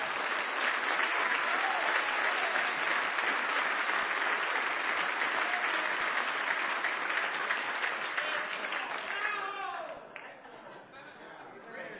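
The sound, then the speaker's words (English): A church audience claps their hands in steady applause, mixed with crowd chatter, holding an even level before thinning out and dropping off near the end. “Well, I don't mind telling you that was about one of the puniest hand clappings I ever heard in my life.”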